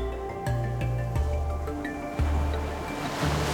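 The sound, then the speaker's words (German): Ocean waves surge and rush on a white beach, a steady soft wash beneath gentle music with low sustained notes. The surf swells louder toward the end. “Du hörst die Wellen im Hintergrund rauschen.”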